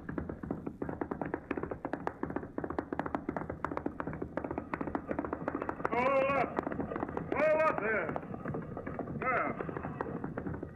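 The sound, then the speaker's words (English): Hoofbeats from a group of riders and wagons approaching along a trail form a fast, steady patter of many quick strikes. Voices briefly join them in the latter part. “Up ahead. A bunch of wagons and riders coming this way.”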